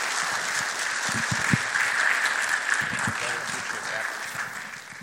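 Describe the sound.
A church audience at Calvary applauds a guest speaker with sustained clapping that holds steady for several seconds and thins out at the end, with some voices mixed in.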